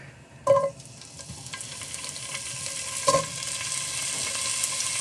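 Tasso ham, a cured pork that cooks like bacon, sizzles in a pan with a steady hiss of frying fat. Two sharp clatters from stirring break through the sizzle, and no one speaks.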